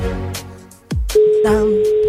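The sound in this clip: A telephone ringback tone on an outgoing call: one steady, even-pitched ring. It starts partway through, right after a brief voice, and holds unbroken to the end.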